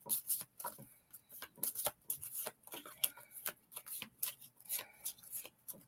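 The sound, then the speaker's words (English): Cards are handled and drawn from a deck for a card reading, producing many faint, quick flicks and soft rustling taps in an irregular patter. “And then for the rest of you, I will pull one card.”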